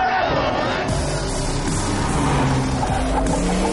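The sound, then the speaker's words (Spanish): Race cars pulling away together from a flag start, a loud, dense blend of revving engines with shifting pitch lines, sustained at a high level from start to finish. “Ari hace una señal con los dos pañuelos blancos y todos los coches salen a la vez.”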